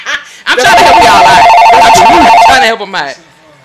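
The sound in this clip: A telephone rings with an incoming call, a steady warbling electronic tone lasting about two seconds, with people talking over and around it.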